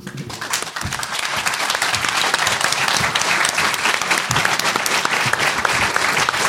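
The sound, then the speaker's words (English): An audience claps in loud, sustained applause, many hands mixing into a dense, even roar that builds during the first second and then stays level. “Clap. Don't show of hands. Clap.”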